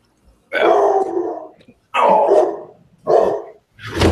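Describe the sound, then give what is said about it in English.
A dog barks in four drawn-out, rough bursts, loud and alone. The third is shorter, and the last is cut off at the end. “Who let the dog in? Woof. Yeah, I'm sorry. I got two dogs, and one of them sitting on me trying to bark it on me.”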